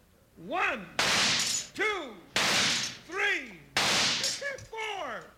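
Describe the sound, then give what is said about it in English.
Gunshots are fired at thrown targets in a Western radio drama. Three sharp, loud blasts each trail off in a noisy tail, with voiced, tonal sounds between them. “All right, cut the talk and shoot, Hickok. All right, Jingles, get to work. Right fast, Bill. Here they go.”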